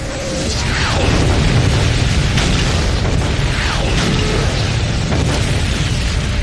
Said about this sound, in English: Now the artillery launches a creeping barrage, designed to provide a moving curtain of steel to protect the advancing infantry.